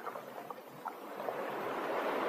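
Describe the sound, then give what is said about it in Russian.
Ocean waves crash and wash in a dense, steady roar that swells louder toward the end, with no clear bird calls rising above the surf. “И под сумасшедший крик чаек, под неустанный грохот волн, я не перестаю вновь и вновь задавать вопросы, которые требуют ответа.”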